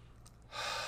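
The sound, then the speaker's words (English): A single deep breath, silent at first, then a loud rush of air that begins about halfway through and holds steady to the end, with no other sound. “Nice deep breath.”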